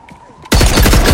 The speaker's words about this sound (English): The man fires sporadically as he stumbles back behind the SUV.